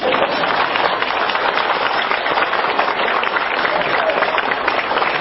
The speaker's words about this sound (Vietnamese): Vỗ tay đi.